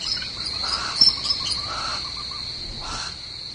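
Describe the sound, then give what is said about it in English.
Young barn owls twitter at the nest as an adult returns from a successful hunt. A steady high-pitched chittering runs throughout, with a few fainter, lower chirping bursts rising over it. “And now, the twitter of the young birds as the adult returns to the nest from a successful hunt.”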